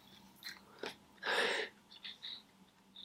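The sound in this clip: Someone chews a piece of flavored candy while tasting it, producing faint, moist mouth noises with a few short bursts and one louder crunchy stretch in the middle.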